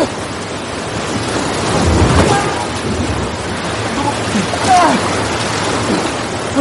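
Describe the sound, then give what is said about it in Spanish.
Ocean surf at the shoreline with the rising tide pushing waves against rocks: a loud, continuous roar of rushing water that swells into heavier surges a couple of times, with a gusty, windy texture throughout. “oleaje en la orilla mientras la marea sube lo empuja hacia las rocas.”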